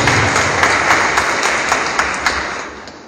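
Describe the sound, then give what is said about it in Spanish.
A church audience applauding as people are welcomed to receive a sacrament: a dense, hissing wash of clapping with a steady rhythmic beat running through it, slowly growing quieter. “Vamos a brindarles fuertes aplausos, estos bienvenidos, que van a recibir el sacramento de la”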